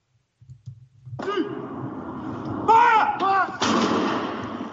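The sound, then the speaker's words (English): Booming gun salute fired across the United Kingdom to mark the death of Prince Philip: a few heavy, loud reports follow one another, each rolling into a sustained rumble that overlaps the next. “Gun salutes across the United Kingdom marked the death of Britain's Prince Philip today as military leaders honored the former naval officer and husband of Queen Elizabeth II.”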